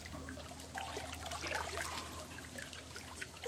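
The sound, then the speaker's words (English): Sewer water trickling and flowing in a continuous, faint, even stream with no voices. “and the sound of sewer water moving.”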